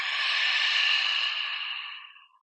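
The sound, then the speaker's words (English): A long, deep breath during a guided relaxation breathing exercise: a steady, airy rush that holds for about two seconds, then tapers off into silence, with no talk. “So deep breath in, exhale out.”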